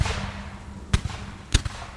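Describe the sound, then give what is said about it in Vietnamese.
Gunshots, several fired in quick succession at a burning water plant in the rain: two sharp, loud bangs, each followed by a fainter thud, over a steady hiss. “Ông Hiếu khuôn mặt như điên lên, quay lại Xí mà nổ liền mấy phát súng.”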